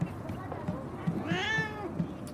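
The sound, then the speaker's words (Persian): A cat meows once, a bright harmonic cry that arcs up and then down in pitch, heard over soft low thumps and people talking quietly in the background. “نزن گربه رو. گربه رو چیکار داری؟”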